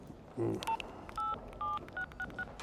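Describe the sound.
Someone dials a number on a mobile phone: a low tap, then a series of short electronic key tones of uneven length in quick succession.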